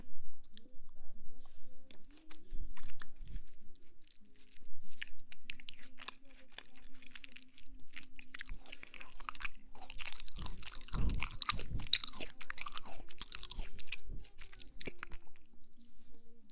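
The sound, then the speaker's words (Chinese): Chewing of a mouthful of fruit, with many irregular wet smacks, crunches and bites. The sounds run continuously at a moderate level over a low steady hum. “张嘴啊！用水果塞满你的嘴，惩罚你！”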